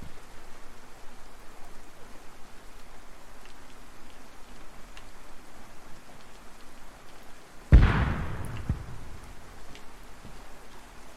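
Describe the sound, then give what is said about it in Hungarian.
A grenade explodes in a video game as one loud, sudden blast with a rumbling decay, breaking into a steady, hissing rain-like background. “Ez egy gránát volt.”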